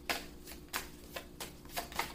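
Cards are shuffled for a card reading: a quiet series of soft riffling bursts, about six in all, each a brief papery flutter with short pauses between.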